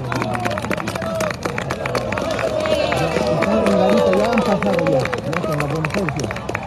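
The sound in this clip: A crowd on a mass protest march descending from El Alto in Bolivia, with a loud babble of many voices over a steady, rhythmic beat of tramping or clapping throughout.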